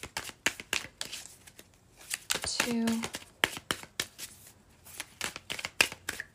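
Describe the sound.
A deck of tarot-style reading cards being shuffled, with many quick soft riffles, slaps and flicks in irregular bursts, fairly faint throughout.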